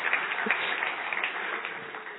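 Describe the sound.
Audience applause greets a guest taking the stage, an even, continuous wash of many hands clapping that stays at a steady moderate level without breaks.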